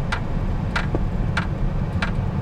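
A car drives slowly around looking for a parking place, its low engine rumble steady beneath four sharp, evenly spaced ticks.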